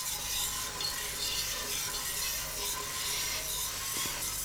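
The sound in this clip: Milk made from milk powder heating in a pot on a stove, a steady soft hiss with faint scraping and stirring, continuous and even, with no voices.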